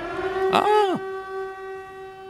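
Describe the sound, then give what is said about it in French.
Warning siren from a horror video game: a steady droning tone runs throughout, while a brief, loud wail swells near the start and then sweeps sharply downward before the drone continues alone. “C'est la sirène de Silent Hill.”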